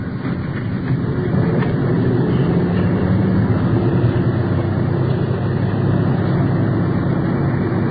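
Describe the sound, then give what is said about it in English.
A police car's engine gives a steady low rumble as the car pulls in to the curb during a pursuit. The broad, even drone holds at one level for the whole stretch, with no voices. “Check, we're running into curb right now.”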